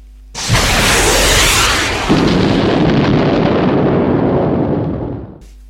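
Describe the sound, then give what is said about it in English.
Rockets fire and explode on a stationary, flooded Ford Focus, making a loud, sustained roaring blast with a renewed surge partway through before it fades out at the end. “And fire rockets.”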